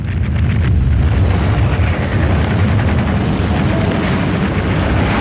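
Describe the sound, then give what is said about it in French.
A bombing sound effect plays in a museum elevator about the wartime destruction of the Polish capital. It is a loud, continuous rumbling roar with a steady low booming texture and no separate blasts standing out. “Et là, il y a des bombardements, on entend les bombardements.”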